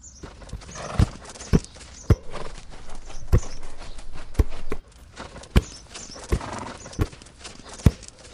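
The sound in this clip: A ridden horse's hooves clip-clop in many sharp, irregular thuds over a low rustling background, with some strikes landing louder than others.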